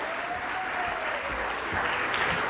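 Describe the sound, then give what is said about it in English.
Audience applause, a dense and steady wash of many hands clapping that holds at an even loudness from start to finish with no breaks. “Oh, very good. Congrats. Give yourselves a hand for that. That was awesome.”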